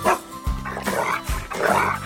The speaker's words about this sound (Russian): Вот и Алтай, мой верный пес, с вами поздоровался